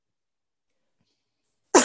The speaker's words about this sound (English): I inhaled popcorn there.